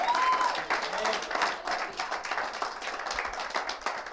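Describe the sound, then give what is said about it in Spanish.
Applause from an audience in church during a sermon, a dense, steady patter of many hands clapping that fills about four seconds and eases off slightly toward the end. “Si le va a dar un aplauso, déselo a Él fuerte, con gloria, con alabanza, con celebración.”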